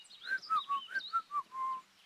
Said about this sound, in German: Mal sehen, ob man so auch pfeifen kann.